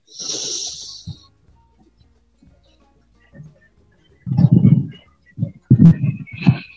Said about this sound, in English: And now we breathe in through the nose.